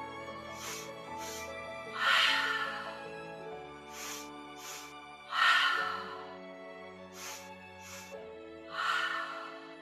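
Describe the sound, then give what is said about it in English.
Rhythmic fire breathing: two quick sniffs in through the nose, then a longer, louder breath out through the mouth. The quick-quick-slow pattern repeats three times, soft and unaccompanied. “And the second breath is a fire breath. We will bring a lot of oxygen into our bodies. It sounds like this.”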